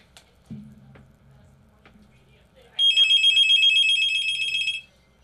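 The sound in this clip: A telephone ringing on a radio call-in line: one long, bright, trilling electronic ring that follows a quiet stretch with faint, low sounds.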